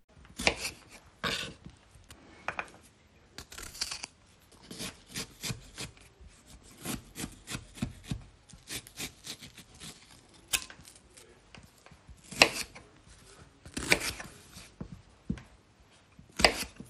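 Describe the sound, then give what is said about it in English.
Knife cutting apricots and prising out their stones for a preserve, heard as many quiet, irregular rubbing, scraping and tapping strokes with brief pauses between bursts. “start off by cutting the apricots and taking the stones out.”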